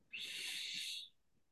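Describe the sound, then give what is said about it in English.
A person takes a single slow breath in, a soft airy hiss lasting about a second, quiet and heard alone. “I'm just going to take a breath just to...”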